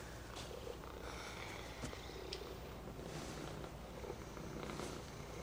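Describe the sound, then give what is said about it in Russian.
A spotted cat purrs while being stroked: a faint, steady, low rumbling purr that continues without a break. “Гладит пятнистого кота, закрывает глаза.”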